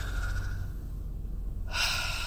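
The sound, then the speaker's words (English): A person takes one quick, deep breath, heard as a short, loud rush of air near the end over a steady low hum. “So let me take a quick deep breath.”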